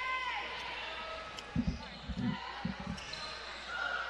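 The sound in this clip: A basketball is dribbled up the court during a women's game: three dull, low bounces, evenly spaced, over a steady hum of gym noise.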